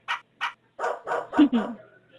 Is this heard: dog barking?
yes